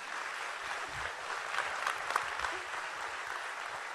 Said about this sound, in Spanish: Un aplauso para don Ivo y para Marilyn Cochamanidis.